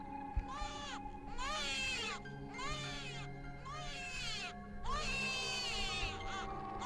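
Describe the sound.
A weak infant, soaked in cold water on a small raft, cries in several drawn-out, wavering wails separated by short breaks, over a steady low background hum.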